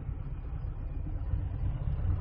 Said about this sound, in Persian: خروجی شیراز، هجوم مردم به طرف پاسارگاد، الان 45 دقیقه که ما تو ترافیکیم، خروجی شیراز.